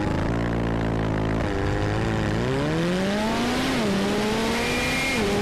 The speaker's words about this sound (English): Now we're going to jump on board the McLaren, and you can see how hard it has to try.